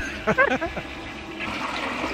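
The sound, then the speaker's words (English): A toilet flushes to dispose of a dead goldfish, producing a steady rushing wash of water that swells toward the end, with a few short voice-like bursts near the start. “Our goldfish is dead. We had to flush Goldie.”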